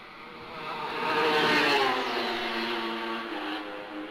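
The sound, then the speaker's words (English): A racing machine passes flat out, its engine a loud whirring roar that swells to a peak and then eases off, steady and continuous with no voices. “I'll just let you hear the sound of the machine yourself as here he comes.”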